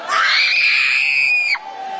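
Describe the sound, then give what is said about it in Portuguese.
Loud, high-pitched shouting from an audience during a church service rises into a sustained shriek that breaks off near the end, leaving a lower, steady voice. “Grita para Jesus queimar. E Deus está desfazendo este trabalho agora.”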